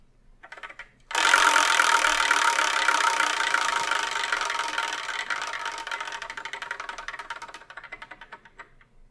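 A wheel spun to pick the next manga review gives off a dense, rapid clicking rattle that starts abruptly and then gradually fades over several seconds.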